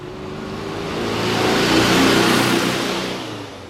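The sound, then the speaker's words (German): A car drives off, its engine noise rising to a broad roar around the middle and then easing away, with a steady mid-pitched engine hum under the rush of the road. “Sie fahren aus Seine heraus.”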